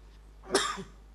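A preacher coughs once during a sermon, a short, fairly soft cough followed by a faint low tail.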